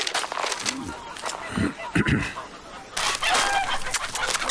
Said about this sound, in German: Kommt, ihr Hühner, kommt. So ist gut. Fresst euch satt, damit ihr einen feinen Braten fürs Mondfest abgebt.